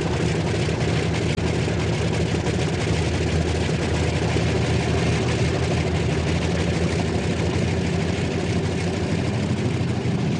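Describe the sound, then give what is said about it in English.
A multi-engine propeller aircraft taxis and turns onto the end of the runway for takeoff. Its engines make a loud, continuous low roar and drone that holds steady without pause for the whole clip. “The first aircraft that is going to lead the very front in the early hours of tomorrow morning is turning onto the end of the tarmac to make its takeoff.”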